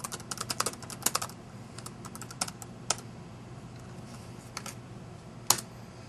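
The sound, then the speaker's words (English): Keystrokes on a computer keyboard as someone types a web address: many irregular light clicks with a few sharper taps, fairly faint and steady over a low background hum. “Type the URL correctly.”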